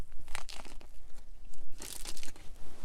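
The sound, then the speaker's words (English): Crunchy bites into a hefty pre-made Italian sub sandwich from a grocery store, several crisp crunching chomps mixed with crinkling and tearing, without talk. “It's a pretty hefty sandwich. It's a pre-made sandwich that I got from a grocery store, but it's like an Italian sub sandwich.”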